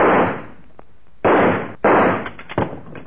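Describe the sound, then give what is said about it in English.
Gunshots are fired at a vault door handle to break it off: three loud, sharp blasts, each trailing off with a short decaying echo, followed by a smaller pop near the end. “Hoppy, I sure wouldn't want to put a lot of money in that vault. It don't look very strong. Stand back. I think I can shoot that handle off.”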